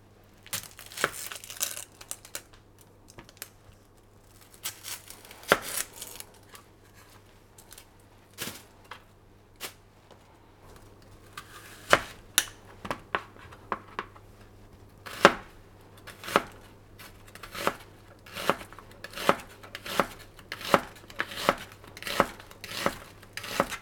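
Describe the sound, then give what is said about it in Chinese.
A knife chops onions on a board while preparing a Japanese-style home curry: many sharp, crisp taps in an irregular rhythm that grow denser and quicker toward the end. “土豆的话就是切滚刀块，然后开始切洋葱。”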